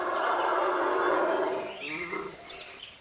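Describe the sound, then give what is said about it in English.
Howler monkeys roar, from a family that visits a centre with a vet: a loud, sustained, rough howling that dominates at first, then eases after about a second and a half while the calls carry on more quietly. “A howler monkey. A family of howler monkeys visits the centre every day, helping themselves to leftovers.”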